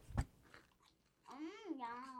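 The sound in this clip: One crisp crunch of biting into a sweet-and-salty, sea-salted caramel snack like caramel corn, faint and brief, followed by a person talking.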